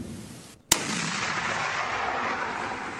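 Artillery fire on a Ukrainian battlefield: one sharp, loud blast, followed by a long, sustained rumbling roar that lingers for over two seconds.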